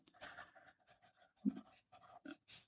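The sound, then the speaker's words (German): Handwriting as notes are jotted down, with a few scratchy strokes coming in short, irregular bursts. The scratching is fairly faint, with no talk over it. “Ich muss jetzt bloß mal kurz noch notieren hier, dass ich euch das noch dazu schreibe.”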